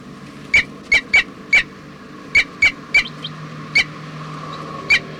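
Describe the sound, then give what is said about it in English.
Nine sharp, high-pitched squeaky calls from a bird being held in the hand. They come at irregular intervals as brief distinct bursts over a low, steady background hum. “Bird 304 here. While being handled.”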